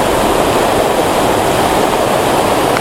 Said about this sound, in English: waterfalls are great, but you can't see anything because my glasses just get covered up with the spray